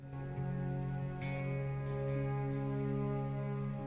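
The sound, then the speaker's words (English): An alarm clock goes off under a sleepy cadet's pillow with two short bursts of rapid, high electronic beeps, faint over a sustained low musical drone. “An alarm goes off under Estrada's pillow, and the sleepy cadet turns it off and rolls over.”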